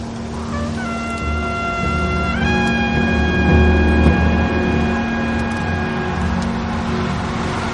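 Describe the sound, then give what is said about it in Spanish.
A car approaching from behind on a road: a steady engine hum carries a tonal whine that steps up in pitch early on and then holds, with the sound swelling slightly toward the middle. “Un coche viene por detrás.”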